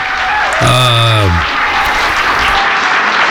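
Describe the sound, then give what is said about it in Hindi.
Applause for a guest on a radio show, a steady, dense wash of clapping throughout, with a voice briefly heard over it near the start. “ढेर सारी तालियां जनाब”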